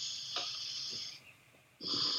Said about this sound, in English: let's all take a deep breath into our hearts.